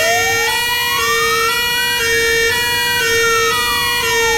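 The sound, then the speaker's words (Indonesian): A fire engine siren sounds as the fire brigade arrives at a rural longhouse: one loud, continuous wail that climbs steadily in pitch for about two and a half seconds, then slides back down. “Tidak lama selepas itu, kedengaran bomba bermunyi punya mimo, mimo, mimo.”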